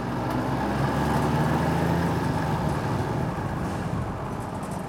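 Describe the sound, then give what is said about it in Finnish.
A moped engine running as a ride begins: a steady, buzzing motor drone with a low rumble that holds fairly even throughout. “Mopon moottori pärähtää käyntiin ja matka majapaikkaan alkaa.”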